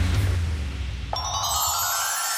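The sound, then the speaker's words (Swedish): A telephone rings: a bright electronic tone starts about midway and holds steadily to the end, after a low hum at the start. “Det ringer hos Karlavagnen”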